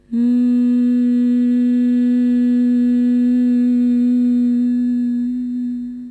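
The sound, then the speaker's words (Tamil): Humming of bhramari pranayama breathing, a bee-like hum made while breathing out with the ears closed by the fingers: one long, continuous low tone at a very steady pitch, loud throughout and easing off slightly at the end. “மூச்சை வெளியே விடும் போதே அந்த humming பீ like உம்ற சவுண்டை நம்ம produce பண்ணும் போது”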